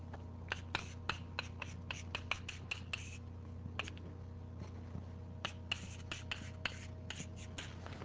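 Chalk writing on a lecture board: many short, crisp taps and scratchy strokes in quick irregular bursts over a low steady hum, with no talking.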